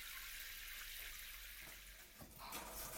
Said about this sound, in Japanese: シャンプーを流し終えるまでしばらくそのままでいてくださいね。